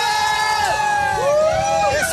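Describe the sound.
Crowd shouting and cheering at a live rock concert forms a loud, unbroken wall of voices with held, sustained tones throughout.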